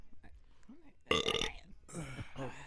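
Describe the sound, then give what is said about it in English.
A single loud, rough burp breaks in between stretches of casual talk, lasting about half a second with a harsh, buzzy texture before the voices resume. “Oh, this nigga paused me and burped.”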